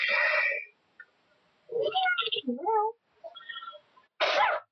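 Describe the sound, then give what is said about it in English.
A sneeze bursts out at the start and another sharp sneeze-like burst comes at the end. Voiced sounds fill the gap between them. “Gesundheit.”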